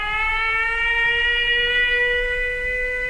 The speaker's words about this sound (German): Attention, air raid alert. Proceed to the nearest shelter.